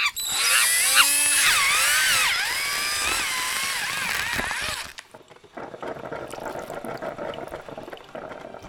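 A whimsical coffee machine whirs as a radio-play sound effect. High warbling, sweeping tones hold for several seconds, then break off into a lower, steady rumbling and gurgling churn.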